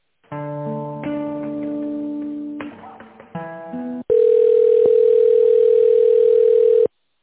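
Telephone tones while a call is transferred: a few seconds of electronic tones that change pitch several times, then one long steady beep that holds at an even pitch and stops cleanly, with no voices.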